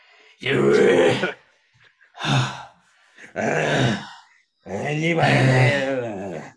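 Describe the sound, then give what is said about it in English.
Heavy breathing from someone out of breath: four loud, voiced, groaning breaths in an uneven rhythm, separated by short silences, with the last breath drawn out longest. “hold on a second. I'm out of breath.”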